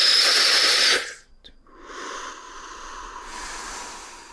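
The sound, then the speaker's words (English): Sharp, sniffing inhalations: a loud breathy rush of air, a brief sniff, then a long sustained intake of breath, with no talking. “I start inhaling in the hope that I might find something.”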